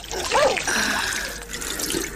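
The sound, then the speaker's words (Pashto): Water poured from a small jug for washing hands, a steady splashing trickle that runs evenly throughout with no clear pauses. “صبر، چې لوټکه کې اوبه واچوم.”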